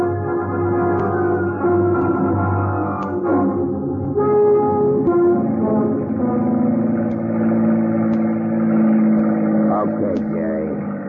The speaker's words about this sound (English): Cut the motor. Oh, I said cut the motor. We're stopping here.